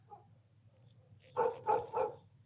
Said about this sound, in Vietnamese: Đang nghe chuyện say sưa thì ở bên ngoài, chúng tôi nghe loáng thoáng có tiếng chó cắn ma.